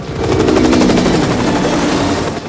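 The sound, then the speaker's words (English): A helicopter lifts off and rises into the air, its rotors making a loud, steady, rhythmic thumping chop that holds at an even level for the whole stretch. “The helicopter rises in the air.”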